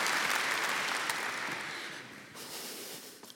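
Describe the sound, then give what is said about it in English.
An audience applauds to welcome a speaker on stage at a business technology conference, the dense clapping starting strong and fading steadily until only a few scattered claps remain. “So I would like to invite Johan on stage. Let's give him a hand.”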